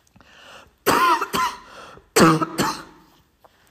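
Coughing from a tickle in the throat comes as two pairs of harsh, raspy coughs with a short pause between the pairs, preceded by a faint breathy sound.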